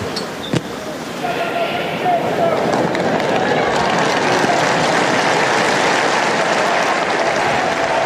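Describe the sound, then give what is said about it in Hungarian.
Applause closes Pope Francis's general audience in St Peter's Square. A large crowd's clapping swells after about a second and holds as a dense, loud, continuous patter to the end. “És tapssal ér véget a mai napon is. Ferenc pápa általános kihallgatása a vatikáni Szent Péter téren.”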